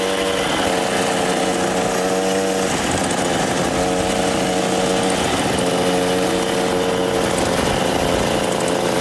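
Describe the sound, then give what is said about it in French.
A moped engine runs throughout in a loud, steady buzzing drone with a whining tone that barely changes. “La vie de Jésus, la mobilette, ça faisait partie du décor.”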